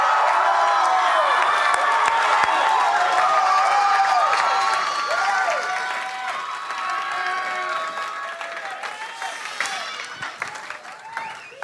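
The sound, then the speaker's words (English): An audience applauds and cheers as a speaker is welcomed to the stage: dense, sustained clapping mixed with whoops and shouting voices that holds strong, then gradually eases off. “put your hands together and welcome Damps to the stage”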